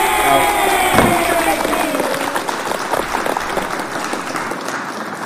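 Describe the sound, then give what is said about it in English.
Audience applause with cheering: dense, steady clapping and crowd noise that carries on for several seconds and eases off slightly toward the end. “That is for you. It's for me. It's for everybody. We all deserve a clap,”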